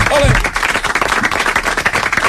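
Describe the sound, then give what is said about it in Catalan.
An audience bursts into loud applause for the day's contestants, with rapid, dense clapping that runs throughout after a brief voice at the start. “Un aplaudiment per els concursants d'avui.”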